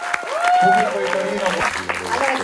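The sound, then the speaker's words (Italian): Audience applause for a film director, a dense clapping crowd throughout, loud and steady, mixed with a voice speaking over it and some tonal music or feedback lines. “Facciamo un applauso alla regista di questo film, facciamoci sentire un attimo.”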